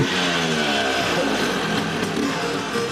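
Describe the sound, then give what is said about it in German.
An old two-stroke Vespa scooter engine rattles: a continuous buzzing, crackling drone with a steady pitch and no clear revving, loud and alone. “So wie das Knattern der alten Zweitaktmotoren.”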